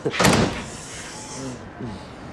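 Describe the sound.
A locked door being tried, a brief rattling clatter near the start followed by quieter handling, with people talking afterward.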